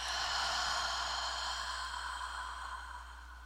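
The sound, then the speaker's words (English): A deep breath drawn in and slowly let out, a long soft airy hiss over a low steady hum, gradually easing off with no talk. “deep breath in and out”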